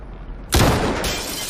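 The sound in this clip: A single gunshot fired by a sniper team: one sudden, loud, sharp crack that spreads into a noisy tail lasting about a second.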